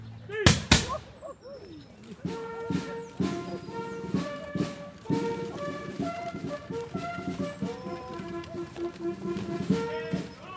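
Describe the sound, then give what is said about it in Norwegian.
Gun salute fired by three soldiers in period 1808 uniforms at the unveiling of the restored monument to Prince Christian August. Sharp, loud cracks come at the start, followed by sustained band music. “Mens tre soldater i tidsriktig 1808-uniform skyter salutt”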